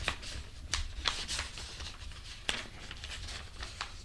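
A binder being opened, with soft continuous paper rustling broken by a few brief, sharp clicks and snaps spread unevenly through the handling.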